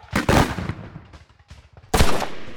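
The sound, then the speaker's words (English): A flintlock musket loaded with lead ball and wadding fires with loud, sharp blasts, one near the start and another after a pause, each trailing off in a rumbling tail. “I still have to half-cock the hammer and push the frizzin forward for powder. Aim! Stupid lead ball and wadding. Get in the barrel! My ramrod is not cooperating here.”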